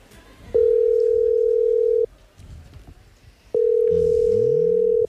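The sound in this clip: An outgoing telephone call's ringing tone sounds as two long, steady, mid-pitched tones about a second and a half each, separated by a pause, with faint voices and background murmur between and under them.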